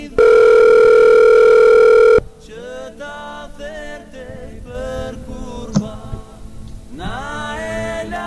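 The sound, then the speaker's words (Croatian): A telephone rings with one loud, steady electronic tone lasting about two seconds. Quieter, mixed sounds follow. “Telefon zvoni”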